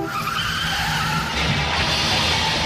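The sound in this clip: Car tyres skid and screech in a road accident, rendered as a sound effect: a harsh, sustained hiss of rubber that swells louder partway through and carries on to the end, with no voices.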